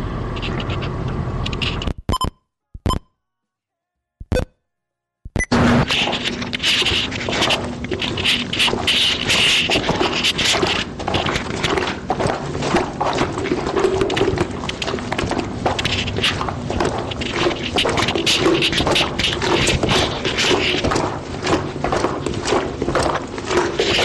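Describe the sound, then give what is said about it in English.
Footsteps of wet wellington boots walking through hallways, a continuous run of clumping steps after a short gap near the start, steady and fairly loud. “That was the sound of my wet wellies walking through the hallways here.”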